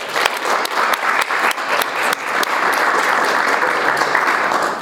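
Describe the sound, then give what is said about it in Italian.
Audience applause for an evening's guest, opening with some distinct separate claps that quickly thicken into loud, dense, steady clapping that carries on to the end. “proporrei un altro applauso alla nostra ospite di questa sera, Ingrid Rungalier.”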